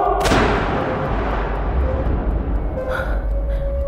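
A single gunshot bursts out sharply from a gun and then trails off in a long rumbling decay. Loud, steady background noise runs underneath the whole time.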